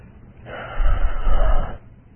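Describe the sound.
A voice imitating a younger brother's sharp, forceful breath in: one noisy, rough inhale lasting about a second, fairly loud and heard alone.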